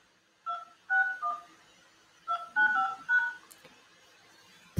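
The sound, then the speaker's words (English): Touch-tone keypad beeps entering a six-digit PIN on a phone line: short dual-pitched tones in two quick clusters separated by a pause, clean and faint with no voices, then a click at the end. “Enter your 6-digit PIN number.”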